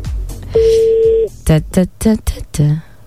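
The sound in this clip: Telephone number dialed for a call to a young woman: a steady tone holds for under a second, then a quick run of several short beeps follows.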